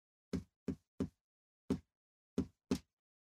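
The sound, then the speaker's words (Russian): Six sharp, hollow knocks tapped out as Morse code from inside a space station module: three in quick succession, a pause, one knock, another pause, then two close together, with silence in between. “из модуля Destiny донесся стук. Ритмичный, методичный.”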